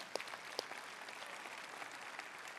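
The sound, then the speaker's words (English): Audience applause welcoming viewers joining online: a faint, steady wash of clapping with a couple of sharper claps near the start. “Would you put your hands together and welcome everybody joining us on the other side of that camera right now?”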